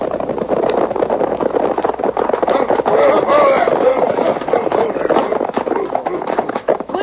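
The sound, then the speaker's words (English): Horses' hooves as three outlaws ride into a town. Dense, continuous clattering and thudding of several animals fills the whole stretch at a steady loudness. “It was an hour later when the three outlaws, headed by Jake, rode into Dalton with Betty and the other passenger from the coach.”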